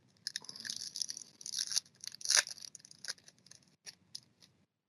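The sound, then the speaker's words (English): Foil wrappers on football trading card packs being ripped open: faint, irregular bursts of crinkling and tearing, with no voices. “let's move on to ripping more of the packs then”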